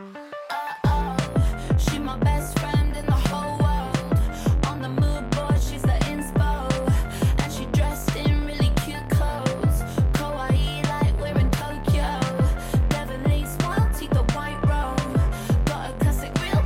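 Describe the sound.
Upbeat electronic pop track from a film soundtrack, used in a chase sequence, pounding a loud, steady driving beat with dense synth layers that stay constant throughout, no voices standing out.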